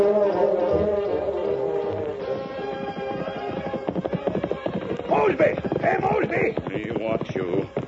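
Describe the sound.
Hooves of ridden horses clip-clop in a steady, rhythmic run of many strikes, growing busier and louder toward the end over a bed of other sound.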